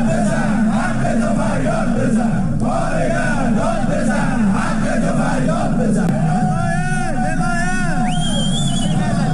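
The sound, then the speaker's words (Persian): Striking household appliance factory workers and Sarma Afarin company staff in Alborz industrial town, Alvand, Qazvin, chant protest slogans at a rally, a loud, continuous mass of shouting voices throughout. “کارگران کارخانه لوازم خانگی و کارکنان شرکت سرما آفرین در شهر صنعتی البرز در الوند قزوین دست به اعتصاب زدند و در تجمع اعتراضی خود شعارهایی سر دادند.”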